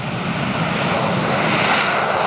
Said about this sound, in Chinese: 多架战机依次起飞